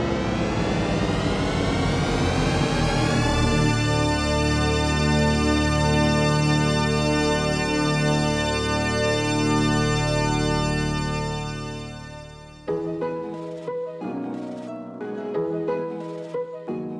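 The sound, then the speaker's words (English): The THX cinema audio logo: a deep, swelling synthesized chord that opens as a dense, shifting cluster of tones, then converges into one loud, sustained, richly harmonic chord held for several seconds before fading. “That somewhat ominous sound you just heard is the THX audio logo known as the Deep Note.”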